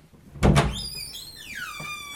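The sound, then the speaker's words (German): A toilet door in a house's entrance hall is opened: a short, low thunk from the latch, then a high, drawn-out creak from the hinge. “Ich mache mal die Tür auf.”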